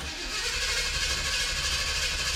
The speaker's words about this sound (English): let's hit the road. So I would like you all to come along for a little drive with me. I'm driving the 78 Trans Am.